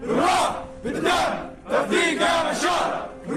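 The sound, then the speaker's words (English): Syrian fighters lined up to enroll chant together, producing loud, rhythmic shouted phrases that repeat in steady waves from the crowd. “What you're hearing now are chants by Syrian fighters lined up to enroll.”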